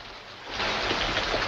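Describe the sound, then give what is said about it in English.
Rain beats on the corrugated roof of a hospital on a U.S. military base, a dense, steady hiss of patter that swells slightly after the start and carries on alone. “Rain bounces off the corrugated roof of a hospital on a U.S. military base.”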